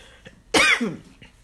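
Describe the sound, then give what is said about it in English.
A throat-clearing cough caused by a tickle in the throat: one sharp, loud cough breaking into a gruff, lower rasp, then quiet. “Oh, excuse me, I have a tickle in my throat.”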